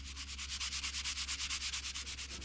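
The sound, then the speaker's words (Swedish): Body filler on a repair is sanded down in a garage: many fast, even back-and-forth rasping strokes in a steady rhythm, bright and hissy, over a constant low hum. “Sliparbetet tar aldrig slut. Så fort han slipar ner spackel vid en lagning finns det alltid en ny att fortsätta med.”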